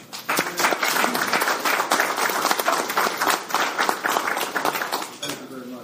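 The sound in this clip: Audience applause welcomes a speaker at a chapter meeting: dense, loud, continuous clapping that thins out near the end.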